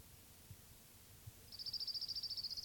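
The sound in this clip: Orange-crowned warbler song in a field recording: a high, rapid trill of many even notes begins partway through and runs to the end. A few soft low thumps come before it.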